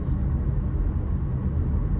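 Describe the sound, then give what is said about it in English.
Steady low rumble of road traffic heard from inside a moving car, an even, continuous drone with no clear separate events. “I thought I would have some road rage today, but everything's... The traffic is quite calm today. Everybody's behaving themselves.”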